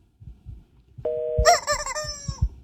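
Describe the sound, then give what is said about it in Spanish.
An electronic telephone ringtone signals an incoming call: a short steady tone jumps into a brighter, warbling multi-note pattern, loud over a quiet background with faint low thumps. “¿Qué hay? Llamada. Vamos a ver si es de McAllen.”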